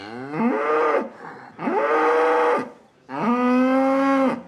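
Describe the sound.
A lone pregnant cow moos three times, calling to rejoin its herd. The calls are long, loud and harmonic, with short pauses between them, and the third is the longest.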